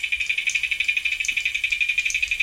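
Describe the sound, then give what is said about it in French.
Rapid, rhythmic stridulation of an aquatic bug recorded underwater, a cicada-like buzzing made of many quick, even pulses at a steady high pitch, continuous and fairly loud, with no voices. “Et en fait, c'est bien loin d'être le silence sous l'eau. Voilà, c'est une vraie cigale, c'est incroyable. Hein. Et en fait, c'est une punaise aquatique.”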